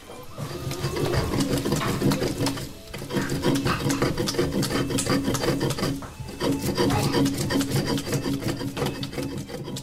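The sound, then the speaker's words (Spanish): Rasping stone-on-stone grinding as red chiles, garlic and cooked tomatoes are worked on a stone metate, a steady rhythmic scrape of back-and-forth strokes broken by two brief pauses. “Ma, ya molí los chiles rojos, el ajo y los jitomates cocidos. Todo lo molí en el metate.”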